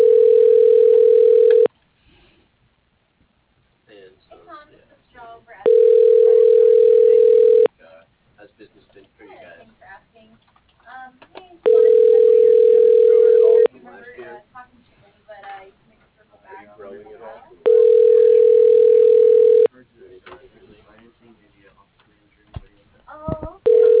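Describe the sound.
Ringback tone on an office telephone line while an extension is dialed through an automated directory: four long, even tones at a steady interval with a fifth just starting, and faint muffled sounds between them.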